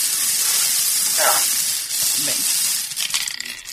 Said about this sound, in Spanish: Venga, dale al bombo. Venga, dispara cuando quieras.